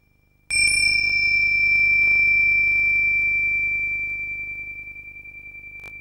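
Two small bells, each about 7 to 8 cm across and hung on a leather strap, are knocked gently together once. They give a bright, sustained ring with steady high tones that slowly fades.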